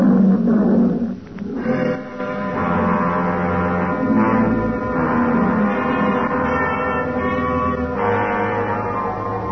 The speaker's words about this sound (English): Nobody answered me but an old Liberian lion.